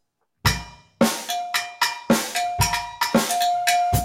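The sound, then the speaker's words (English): Rapid metallic strikes on a lens drum resting on a rack tom ring out in a loose, uneven rhythm, many bright bell-like hits overlapping as each tone sustains and fades. “Yeah, it's a lens drum.”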